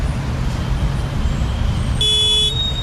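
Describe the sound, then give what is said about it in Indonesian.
Car horn in a traffic jam, with a steady low roadway rumble underneath. A single loud honk of about half a second sounds near the end. “macet banget nih.”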